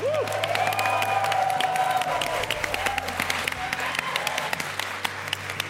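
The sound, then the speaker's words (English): A theater audience at a DragonCon live show claps and cheers, a dense, steady wash of applause with scattered whoops and crowd voices mixed in throughout. “let's first give a huge round of sound for the Sarand Theater.”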